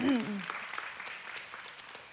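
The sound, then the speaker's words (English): Applause in a church, quiet clapping from an audience that follows a brief voice and fades gradually. “It's okay to clap.”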